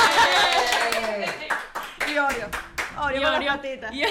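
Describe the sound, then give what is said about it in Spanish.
Audience applause, with bursts of sharp hand clapping breaking through lively, overlapping talk as several people speak over it. “Por favor, aplausos del público. Aplausos.”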